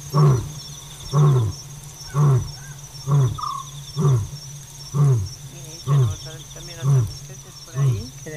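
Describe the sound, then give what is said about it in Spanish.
A lion roars at night in a series of nine deep, evenly spaced grunting calls, each about a second apart, over a steady chirring of insects. “El león tiene altavoz propio, decía Ramón Gómez de la Serna, una greguería, y es verdad que parece como que amplifica su llamada, que se estira ahí por el fondo de la noche”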